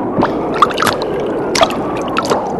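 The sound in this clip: Rushing, gurgling water flowing fast like a small stream, with a steady wash of noise and a few brief splashy gurgles standing out over it, and no voices.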